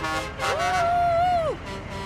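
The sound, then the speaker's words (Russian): Car horn from drivers on a street, a single sustained toot of about a second that holds a steady tone and dips in pitch as it cuts off. “Дирижирует, водители сигналят.”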